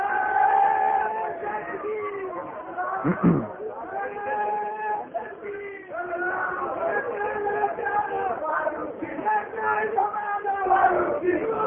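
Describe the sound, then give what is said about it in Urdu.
A crowd at a rally chants slogans loudly in support of Farooqui, with voices rising and falling in repeated bursts over a continuous roar of many people. “نعرہ تو لگاؤ بلند آواز سے”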